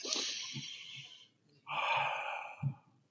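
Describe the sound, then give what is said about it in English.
A person imitates slow, calm breathing with one long, airy inhale, a brief pause, then a long, smooth exhale, faint throaty sounds underneath. “But if he's breathing like this”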